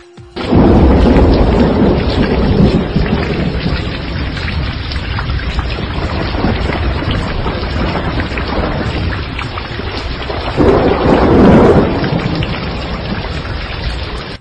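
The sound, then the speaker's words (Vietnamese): Heavy rain pours in an early spring thunderstorm as a dense, loud, constant hiss. Low thunder rumbles swell near the start and again toward the end. “Sấm chớp đầu xuân giật từng trận, mưa to tầm tã.”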